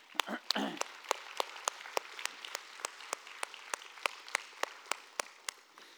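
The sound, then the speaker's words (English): Audience applause: a brief burst of clapping at the start, then steady, evenly paced claps that continue throughout at a fairly soft level. “Let's give him a hand.”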